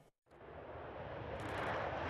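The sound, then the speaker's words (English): A US Air Force B-1 bomber departing an airbase gives a broad, continuous jet roar. After a brief drop at the start, it swells steadily and grows louder toward the end. “Off back to America, a US Air Force B-1 bomber departing Fairford yesterday.”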